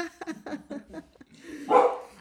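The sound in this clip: Dog barking: a quick series of short, sharp yappy barks, followed by a louder, rougher burst toward the end.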